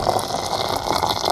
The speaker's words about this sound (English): Now, you just have to boil a kettle without them noticing.